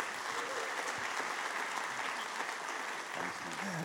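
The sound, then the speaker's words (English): Dense audience applause welcoming a guest speaker in the UK, a continuous wash of clapping that stays at an even, full loudness throughout. “please put your hands together and welcome my friend Brady Boyd.”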